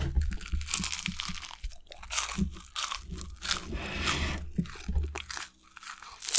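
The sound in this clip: Crunching on a snack in an ASMR-style demonstration: many crisp, crackling bites and chews follow in quick succession, loud and textured, with no talking.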